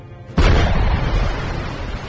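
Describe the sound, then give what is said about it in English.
Harpoon anti-ship missiles explode against a destroyer's hull: after a short quiet lead-in, one sudden loud blast breaks into a dense, roaring rumble that fades slowly. “The harpoons slammed into the vessel directly underneath its anti-ship missile launchers, impacting downward and tearing a large hole in the hull.”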